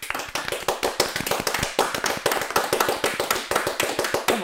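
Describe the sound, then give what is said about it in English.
An applause sound effect of many crisp, sharp hand claps in quick succession, loud and closely packed, keeping an even, driving pace from start to finish. “Applause sound effects.”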